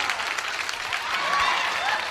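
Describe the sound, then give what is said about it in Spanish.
Applause from a crowd, a dense steady clatter of many hands clapping at an even loudness for about two seconds, with voices mixed in underneath. “¡Aplausos! ¡Aplausos para él!”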